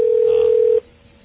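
Steady telephone dial tone on the line as a dial-up internet modem connects for AOL, a single loud, unbroken tone lasting under a second before cutting off to faint hiss.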